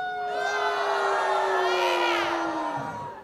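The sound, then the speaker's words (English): A live concert crowd at a festival in Rudolstadt screams and cheers loudly and steadily, with a sustained high-pitched vocal tone that dips in pitch near the end before fading. “you don't have to, go on and scream. I'll let it ring.”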